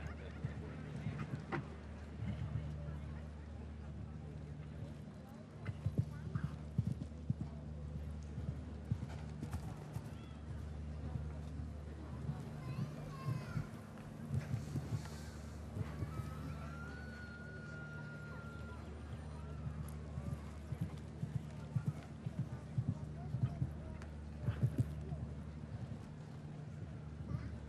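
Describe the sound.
Hooves of a show jumping horse during a round, a steady run of soft thudding footfalls over a constant low hum, fairly faint throughout.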